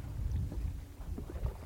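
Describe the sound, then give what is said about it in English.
A boat heading toward the shore near Nuuk in Greenland, heard as a faint, steady low rumble with a gently wavering, wash-like texture throughout. “While we talk, her eyes drift over to a boat heading our way.”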